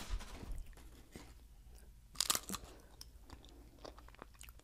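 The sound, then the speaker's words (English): Crunching and chewing as someone bites the corner of a Pringles potato chip: quiet, crisp snaps and mouth noises, with a louder cluster of crunches partway through. No talking. “I mean, see, again, you're biting the corner.”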